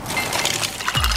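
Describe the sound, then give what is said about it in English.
Ice cubes clink and crackle continuously, made from LG slow-melting craft ice, with bright, glassy ticks over a steady fizz and a low tone entering near the end. “Those are the sounds of ice from LG's exclusive slow-melting craft ice for better-tasting drinks”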